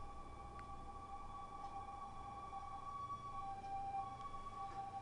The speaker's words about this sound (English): I think that was a siren. I thought I'd play or something. But it turned out that was a record.